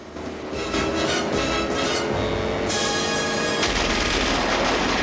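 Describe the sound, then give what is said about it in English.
Rapid automatic gunfire from a cocked weapon tears through a pursuing car on wet sand. It is a loud, dense, continuous barrage of overlapping shots with no clear pauses between them. “Bullets tear through the car and send it flipping over.”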